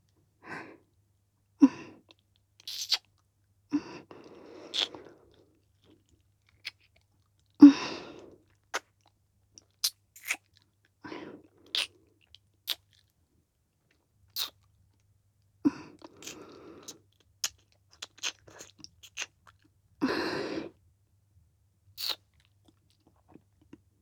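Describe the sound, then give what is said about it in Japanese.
Kissing sounds: many short, soft, wet smacks and clicks, scattered irregularly between quiet gaps, with no talking. “私、チュー大好きなんだ。だから、もっとしよう。”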